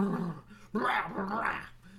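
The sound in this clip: A human voice imitates the Tasmanian Devil cartoon growl: rough, gargling, snarling noise in two bursts, a shorter one, then a brief break before a louder, longer stretch.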